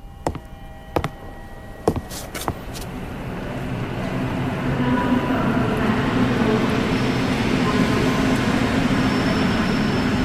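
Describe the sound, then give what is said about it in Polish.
Ambience on a railway station platform. A few sharp clicks and knocks come at the start, then a broad low rumble swells and holds steady to the end. “Dworzec Wileński, peron.”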